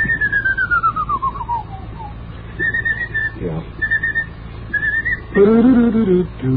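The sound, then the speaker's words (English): Whistling of a march tune by one person: a long gliding line that falls in pitch, then short bursts of high, clear whistled notes with pauses between them, fairly loud over a faint background. “marches are very difficult to sing, and as a consequence, they're difficult to whistle. It used to be quite a common sight to hear people walking down the street. So this particular part is difficult.”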